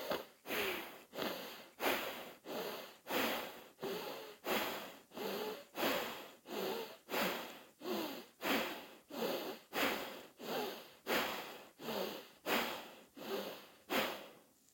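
Rhythmic nasal breathing during a yoga alternate-nostril exercise, soft sniff-like breaths repeating steadily about once a second, many in a row, with no talk.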